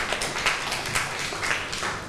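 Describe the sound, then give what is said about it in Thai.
Students clapping for a classmate make a steady, soft patter of many claps that blur into a continuous wash, with a few slightly louder hits. “ถูกต้องค่ะนักเรียนคือพระพุทธศาสนาในฐานะที่ช่วยสร้างความสงบสุขให้แก่โลกนั่นเองค่ะเก่งมากปรบมือให้เพื่อนหน่อยค่ะ”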